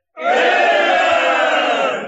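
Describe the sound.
A mob roaring and cheering in praise of a general outside the window, a single loud, sustained swell of many shouting voices that starts abruptly and holds steady for about two seconds.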